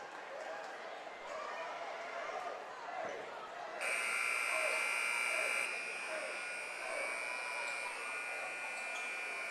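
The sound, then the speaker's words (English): A scoreboard buzzer at a high school boys basketball game sounds a loud, steady, high tone for about two seconds, a little longer than normal, over continuous crowd noise. “Henry Langyons will inbound, and for some reason the buzzer went a little longer than normal”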